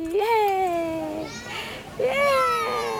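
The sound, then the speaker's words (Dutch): A toddler's high-pitched voice at a small playground near home in South Africa: two drawn-out vocal calls, each gliding slowly downward in pitch, with faint background noise between them. “Een Zuid-Afrikaanse moeder speelt met haar peuter bij een speeltuintje om de hoek van hun huis.”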